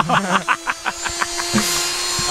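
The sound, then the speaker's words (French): An angle grinder runs with a steady motor hum under a rapid string of rough, gritty bursts, then breaks into a brighter, hissing grind near the end. “Non, c'était une meuleuse.”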